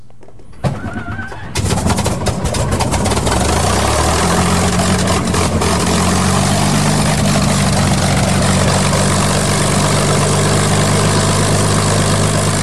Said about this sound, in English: we start this with one of the aircraft that John has been repairing. That's a World War II Mustang, so stand by for that.